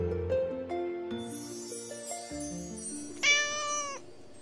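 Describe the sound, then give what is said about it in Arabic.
A small cat meows, one clear rising-and-falling cry standing out near the end above a steady bed of sustained tones. “القطة الصغيرة. كانت هناك قطة صغيرة صغيرة، ولدت في بيت جميل، وكان اسمها نورة.”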